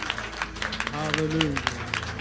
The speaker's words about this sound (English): Come on and give God a hand clap of praise in this room.